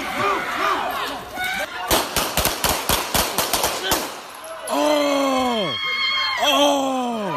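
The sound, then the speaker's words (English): Gunshots from a police shooting ring out as a rapid burst of many sharp cracks. A voice is heard before the volley, and loud anguished screaming and wailing follow. “Y'all ain't had to give them that many shots. And that sound you just heard was the brutal murder of Walter Wallace”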